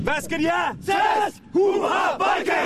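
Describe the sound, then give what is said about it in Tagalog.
Sydney Vikings, a Danish football team in Australia, shout their Danish battle cry before a match. A group bellows four short, loud chanted bursts separated by brief pauses. “Yan ang tunog ng mga Sydney Vikings na nagsasagawa ng kanilang masayang sigaw bago magsimula”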